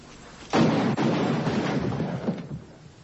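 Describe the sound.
A gun fires a loud, booming blast that dies away in a long, rumbling tail of noise.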